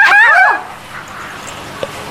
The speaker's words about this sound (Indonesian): Perkenalkan, ini bebek. Oh, halo. Nama saya Kwek. Kwek, kwek, kwek.